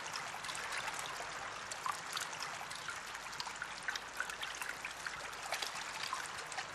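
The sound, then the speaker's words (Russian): Rain falls inside a room as a faint, steady patter and trickle of water. Scattered individual drops tap through the continuous hiss. “Слышен шум приближающегося дождя. В комнате сначала в одном месте падают отдельные капли, затем в другом. Все больше, чаще. Внутри комнаты теперь идет настоящий дождь.”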